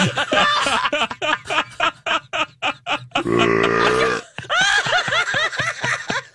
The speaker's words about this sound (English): I can burp on command, but I'm not.